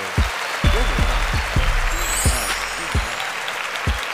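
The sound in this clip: Audience applause for the rapper ASAP Ferg: steady clapping from many hands over a thumping low bass beat that hits at irregular intervals throughout.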